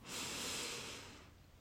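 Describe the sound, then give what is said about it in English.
A single deep breath in: a soft, airy inhalation hiss lasting over a second, rising quickly, holding steady, then gently tapering, faint and alone. “take a deep breath and release. and breathe in”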